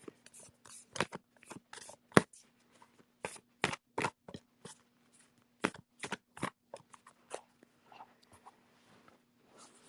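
A deck of oracle cards is being shuffled in many crisp, rustling bursts. The bursts are quiet and come in an irregular rhythm, with no voice over them.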